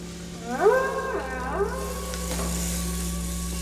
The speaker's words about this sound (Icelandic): Hann heyrði líka hvalina tala hvor við annan.